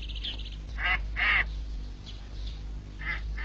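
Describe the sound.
A duck quacks in several short, nasal squawks that come in uneven bursts. The loudest pair falls near the middle, and fainter ones follow later over a steady low hum.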